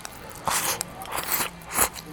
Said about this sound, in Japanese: 味噌キャベツだこれ、うまいわ。味噌とキャベツ、お肉もちょっとおいしい。